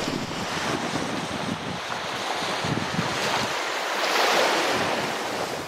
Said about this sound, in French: La musique de la mer qui vous emmène loin, qui vous emmène avec elle.